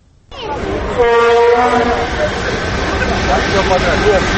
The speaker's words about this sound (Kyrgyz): Курамында 17 вагондон турган Бишкек Москва катамындагы поезд бүгүн түштө башкалардан Орусияны көздөй бет алды.